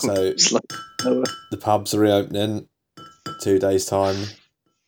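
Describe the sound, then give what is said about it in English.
Glasses clinking glass on glass, the sound of pubs, as a few bright, brief chinks under steady talk. “Listen to that. That's the sound of glass on glass,”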